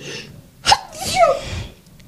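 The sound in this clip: A single sneeze: a sharp, loud burst followed by a breathy, fading tail, with no talk.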